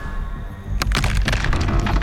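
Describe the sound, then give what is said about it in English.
A carved tekoteko figure cracks and breaks away from the apex of a wharenui: after a quiet opening, one sudden loud crack bursts out and is followed by a rough, splintering, crackling rumble that stays loud to the end. “There is a huge crack as it breaks away from the apex of the whare.”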